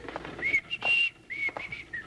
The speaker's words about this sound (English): I'll just start whistling and pass right on by.